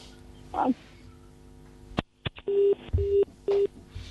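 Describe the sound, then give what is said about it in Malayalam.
A telephone call cutting off as the line disconnects: a few sharp clicks followed by three short, steady electronic beeps, fairly faint and alone. “Call കട്ടായെന്ന് തോന്നുന്നു.”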